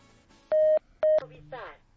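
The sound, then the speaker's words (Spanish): Touch-tone keypad beeps as a telephone number is dialed: two loud dual-tone presses about half a second apart, the first slightly longer, followed by brief softer clicks and noise. “Muy bien, pues vamos a marcarle entonces, no nos cuelgues”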